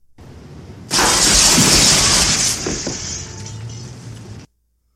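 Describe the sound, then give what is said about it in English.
Window glass shatters in a loud, sudden crash as someone is thrown through it, the breaking noise bursting in after a second of lower rumble and holding for several seconds before cutting off. “It's got the crash of the window.”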